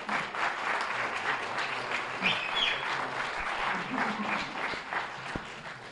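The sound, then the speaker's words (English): An audience at a university lecture at USF applauds to welcome a politics speaker. Dense, steady clapping runs throughout at an even level, with no voices standing out. “Please give him a hand.”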